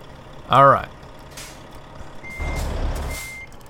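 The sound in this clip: Reversing beeps of a truck in a truck-driving video game: faint, high, steady tones repeat over a low engine rumble, after a brief vocal sound near the start.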